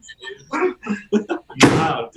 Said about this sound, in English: oh, the door slam. I heard it.